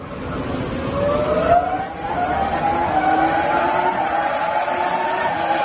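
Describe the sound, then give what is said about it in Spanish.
Engine of an R25 racing car, a continuous loud high-pitched whine that climbs gradually in pitch, dips briefly partway through, then holds steady to the end. “Escuchamos el ruido del motor del R25, ¿no?”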